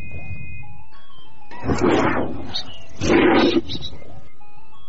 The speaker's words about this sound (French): Félin. Ah voilà, c'est un rugissement juste.